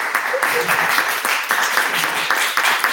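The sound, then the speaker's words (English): Audience applause at a talk in Harlem, New York, as a guest is given a round of clapping: brisk, steady claps run for the whole clip while a voice speaks over them. “let's give Minister Farquhar a round of applause”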